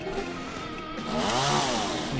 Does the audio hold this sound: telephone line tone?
no